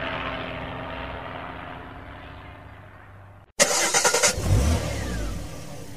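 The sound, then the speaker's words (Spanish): A car engine cranks and catches abruptly after a fading wash of sound, then revs a few times in quick surges before settling into a steady, loud running drone. “Llegó el momento de prender el motor y dar otra vuelta por la historia del rock.”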